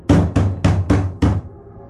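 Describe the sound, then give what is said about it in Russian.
A large fist pounds a shabby door with five heavy, booming thuds in a steady rhythm, each followed by a brief ringing decay. The blows are loud and land alone, with no voices. “Огромный кулак забарабанил по ободранной двери.”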